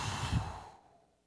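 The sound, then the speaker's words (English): A single deep breath out during a church service's group breathing moment: a soft, airy rush that swells briefly and then fades away to quiet. “So I want everybody to take a deep inhale and exhale.”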